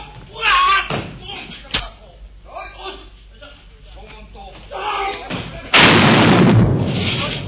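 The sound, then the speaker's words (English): Tiny rocket gun disguised as a cigarette firing: after a stretch of talk, a sudden loud burst of broad hissing noise holds for nearly two seconds and eases slightly toward the end. “Or rocket gun. This is our special baby rocket. It's very useful for people who smoke too many cigarettes like you.”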